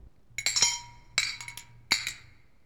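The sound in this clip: A fork clinks against a hard surface in three quick bursts of sharp, bright, ringing taps, with several strikes in each burst and short pauses between them. No voices are heard.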